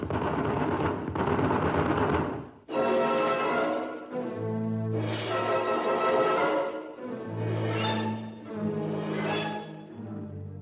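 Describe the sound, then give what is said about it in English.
Machine gun fire in a jungle battle, loud dense bursts of shooting that run in several long stretches with brief gaps, a low droning tone underneath the later bursts. “Quick, they're behind us. Turn the machine gun. Got him. No, they got away. Look, look there in the trees. Fire, man, fire.”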